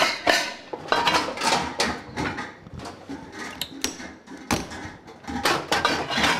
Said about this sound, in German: Klingt wie Küche, ist auch eine Küche